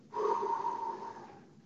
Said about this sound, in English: you go down the box, and it takes 4 seconds to exhale, like,